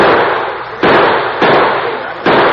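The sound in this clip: Gunshots ring out in a western radio drama shootout: a few sharp, loud cracks break into a steady wash of harsh noise, each blast leaving a long, roaring tail.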